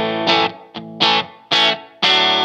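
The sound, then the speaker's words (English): Clean electric guitar tone from a Squier Paranormal Esquire Deluxe, played through its Fender Wide Range humbucker in the middle switch position with the tone control full up: several bright strummed chords ring out in a rhythmic pattern, each sustaining briefly before the next. “Let's just go super clean. So what you've got here is a Fender wide range. Right now I am in the middle of the three positions, which is the humbucker.”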